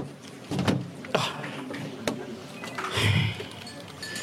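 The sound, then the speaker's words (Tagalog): A vehicle door being closed, with a few dull thumps and clunks amid shuffling and rustling noise. “Isara ang puwertahan sa salakyan.”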